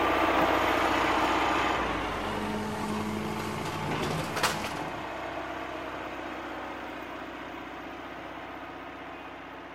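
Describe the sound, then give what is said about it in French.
Excavators, bulldozers and concrete mixers at work give off a steady low engine drone with a rough mechanical rumble, easing slowly in loudness, with one brief knock near the middle. “Il fait venir des pelleteuses. Il fait venir des bulldozers, des déblayeuses, des bétonneurs.”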